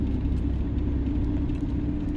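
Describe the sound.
Car engine and road rumble inside a moving car, a steady, heavy low-pitched drone with a faint whir above it and no speech.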